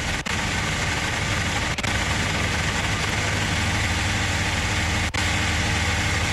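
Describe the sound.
A racing car engine roars steadily at high revs after the car suddenly loses drive. The loud, constant drone is broken by three brief dips.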